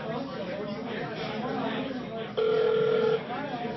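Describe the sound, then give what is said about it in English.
A telephone rings as people chatter in the background: one steady, mid-pitched ring tone sounds partway through and holds for under a second over the talk. “Don't drunk dial John Byrne.”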